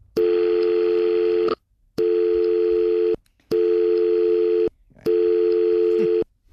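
Ringback tone of an outgoing telephone call to Sydney that goes unanswered: four steady, evenly spaced tone bursts, each over a second long and separated by short silences, with no voices.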